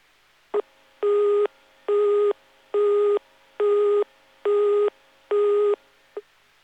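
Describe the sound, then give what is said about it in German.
The German telephone busy tone for busy subscriber lines: six evenly spaced, steady, mid-pitched beeps in an even on-off rhythm, with a faint click before the first and after the last. “Ist die gewählte Fernsprechnummer nicht erreichbar, weil der zugehörige Anschluss besetzt ist, dann hören Sie den Besetzt-Ton für besetzte Teilnehmerstellen.”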